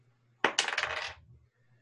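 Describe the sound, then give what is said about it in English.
A bonus die rolled during a tabletop horror role-playing game clatters in one short, rattling burst of about a second, sharp at the start and quickly fading to quiet. “Oh, wait. I got a bonus dice? Yeah, go ahead and roll the bonus die.”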